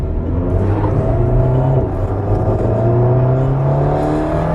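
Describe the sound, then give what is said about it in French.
An Alpine sports car's engine drones loudly and steadily as the car heads onto a race circuit for warm-up laps, its pitch shifting slowly, with no voices. “Donc là, ça y est, on est parti sur le circuit au bord de cette Alpine.”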